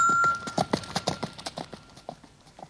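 A galloping horse's hooves beat out a quick, even rhythm of many light clopping thuds. They are fairly soft and heard alone.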